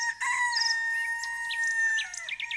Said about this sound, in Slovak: Kikiríkáš nám krásne dnes.